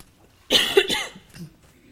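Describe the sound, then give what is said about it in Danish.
A single harsh cough from a person: one sharp burst with a brief rasping tail, then a faint short after-sound and quiet. “Nu skal jeg altså lige hoste igen.”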